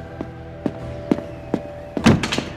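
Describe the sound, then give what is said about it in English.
A door being shut and locked: four evenly spaced soft thuds, then a heavier thump with a brief clattering rattle. “You can't lock us in here.”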